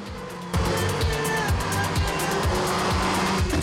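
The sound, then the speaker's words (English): A red coupe's engine roars as it races through tunnels: a loud, sustained note bursts in after a brief quieter start and holds to the end, its low pitch dipping and recovering repeatedly as it drives. “Now they're in Jean's red coupe, racing through a number of tunnels.”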